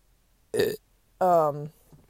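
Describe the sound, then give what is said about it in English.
A human burp from someone sitting in a car: two short throaty bursts, the second longer and strongly voiced with a low, droning tone, with no talking around it. “Oh, sorry, I did, that was a burp.”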